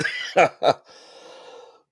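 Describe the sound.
Two short, sharp coughs from a person with a dry throat, close together, followed by quieter sound that fades out.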